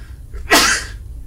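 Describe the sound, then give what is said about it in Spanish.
A single loud, sharp sneeze bursts out abruptly and fades within half a second, with quiet surroundings before and after. “Prefiero que estornudes tú que no yo.”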